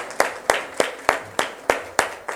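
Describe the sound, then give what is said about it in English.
Hand claps of praise during a church service: eight sharp, even claps at a quick, steady beat, each a crisp slap with a short tail. “Let's give the Lord another hand clap of praise.”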